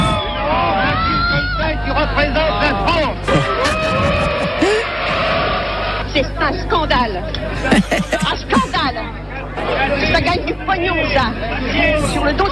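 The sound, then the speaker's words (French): An audience reacting noisily as they leave the screening of a provocative 1973 feature film: a dense, continuous hubbub of many overlapping voices, with some raised and exclaiming, held at a steady loud level throughout. “Le film fait grand bruit. Réaction nerveuse des spectateurs.”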